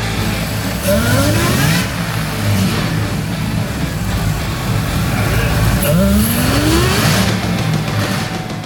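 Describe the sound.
Engine revving from a Volvo 240 sedan with a swapped-in LS V8, supercharger and nitrous. The loud, throaty roar runs throughout with two clear upward pitch sweeps as the revs climb.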